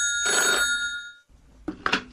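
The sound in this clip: A telephone bell rings in one short burst, then a voice speaks briefly afterward.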